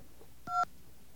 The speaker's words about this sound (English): That's the sound of a phone line hanging up.